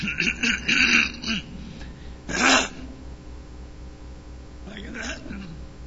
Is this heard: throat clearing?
yes